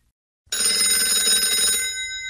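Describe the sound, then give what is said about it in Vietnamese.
A mobile phone rings with a bright, buzzy ringtone that starts abruptly and carries on steadily, unbroken, with no voices over it. “Tiếng chuông điện thoại của Minh Long vang lên.”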